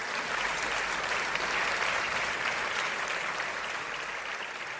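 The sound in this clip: A studio audience applauds to welcome a talk show guest, a dense, steady clapping that holds at an even level for about five seconds.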